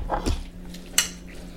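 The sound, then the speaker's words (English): Salmon, rice, mayo and sriracha are mixed in a bowl, with faint soft scraping of a utensil and one sharp clink against the dish. “All right, so now we have to mix up the mayo, sriracha, salmon, rice.”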